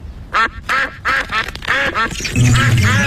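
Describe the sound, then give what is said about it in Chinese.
Ducks quack at a frozen pond on a cold day: a loud run of separate nasal quacks in quick succession gives way to a denser, overlapping burst of calls at the end, with no talk. “你们好，鸭子们，我们给你们带了面包。 鸭子们喜欢面包。”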